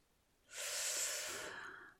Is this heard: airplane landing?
no